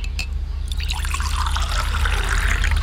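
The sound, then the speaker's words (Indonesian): Tea is poured into a cup for a guest at home, a continuous trickling pour of liquid heard on its own with no talk. “Saya buatkan teh untuk abang, ya.”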